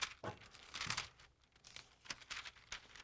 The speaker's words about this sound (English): shh, and they tear this page out and they throw it away.